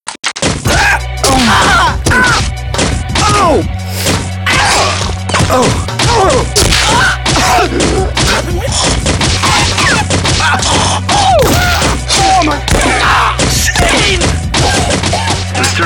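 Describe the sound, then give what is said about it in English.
A booby trap set off by someone trying to get into a stash of Cokes, a loud, sustained barrage of whacks, crashes and swishes lasting many seconds. “Booby trap handles business. I'm glad to see it still worked.”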